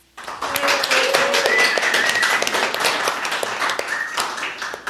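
One person clapping without enthusiasm: after a brief silence, many sharp hand claps follow in an uneven rhythm, holding at a fairly steady level.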